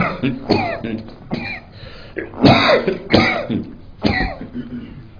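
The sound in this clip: Rough coughing and throat clearing during a religious talk come in a few separate bursts, each harsh and breathy, with quieter gaps between them.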